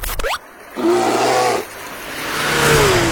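Race car engine revving, used as a signal sound evoking the Grobnik race track near Rijeka: a quick rising rev at the start, then a loud roaring stretch and a second sustained roar with a slowly climbing tone.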